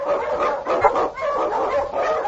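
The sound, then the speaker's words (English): Husky sled dogs bark and yip loudly in a dense, overlapping chorus that continues without a break. “On King, on your Huskies!”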